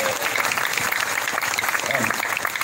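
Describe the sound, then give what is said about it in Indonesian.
Dense, continuous applause from a crowd at a religious gathering, loud and even from start to finish, with some voices mixed into the clapping. “Tepuk tangan untuk kita semua.”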